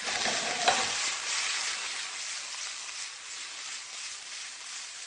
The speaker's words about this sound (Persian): گوشت کاملا داره پخته میشه، حرارت رو کم میکنیم.